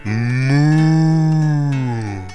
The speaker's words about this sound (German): Auf der Weide steht die Kuh und die macht ganz laut Mu.